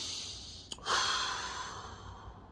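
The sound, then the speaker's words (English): A deep breath taken to release stress: a brief click, then a long, soft, breathy rush that swells and slowly fades, with no talking. “Deep breaths are very important. That's why sometimes even when I'm on a call or even when I'm at work, I go,”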